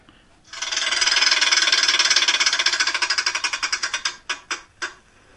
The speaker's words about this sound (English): I think we should spin the wheel. Spin the wheel.